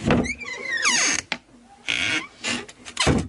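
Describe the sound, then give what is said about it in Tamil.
A door being opened at home as a visitor arrives: a gliding, squeaky creak and several short scraping, clattering bursts, fairly loud, with no talk over them. “சரி, கதவு திறப்போம்.”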